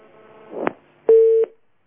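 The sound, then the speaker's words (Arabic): Telephone busy tone after a call disconnects: a brief click, then a single steady mid-pitched beep of about a third of a second, followed by silence. “طيب الاتصال انقطع. نرجو أنه يعيد بنا الاتصال مرة أخرى.”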